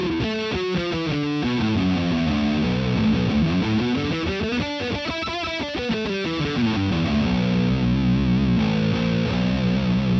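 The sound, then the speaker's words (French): A fuzzy, slightly overdriven electric guitar pickup tone plays melodic phrases whose notes sweep up and down, sustained and loud throughout with no voices. “Vous entendez sa sonorité un petit peu fuzzy? On dirait que ça bave un petit peu, ça déborde un peu, c'est très charmant.”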